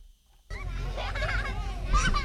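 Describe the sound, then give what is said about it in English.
Toddlers play on a small grass patch among picnic tables in a town of 120 people, racing a mini wheelie bin while mothers chat. Lively children's voices and steady talk overlap throughout. “This small patch of grass in a town of 120 people is the most lively place around. As toddlers race a mini wheelie bin between a row of picnic tables, a group of mums chat over coffee.”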